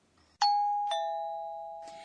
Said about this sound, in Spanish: Suena como un timbre musical. En japonés, ese sonido se representa así. Ping-pong.